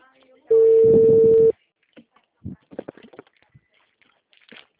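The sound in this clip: A telephone placing a call: a single steady electronic tone lasts about a second, followed by softer, scattered sounds.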